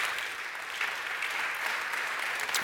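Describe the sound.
Applause in the church as a visiting preacher is welcomed to Mount Pleasant, a steady, even wash of many hands clapping at moderate volume with no break.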